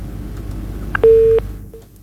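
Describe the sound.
Telephone line tone after a dropped call, one short, steady beep following a faint click, then a brief quieter blip as the line falls silent.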